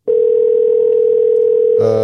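A telephone ringing tone sounds while calling a coffee shop on Beacon Street: one loud, steady, pure hum holds for nearly two seconds, then a buzzier tone with more overtones cuts in.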